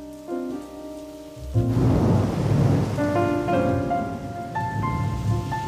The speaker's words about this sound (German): Trübe Regenstimmung am Osnabrücker Hafen.